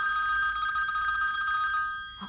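A delegation's telephone bell rings in a bright, continuous, rapidly pulsing trill that holds steady for about two seconds, then stops just before the end. It is heard alone, with no voices.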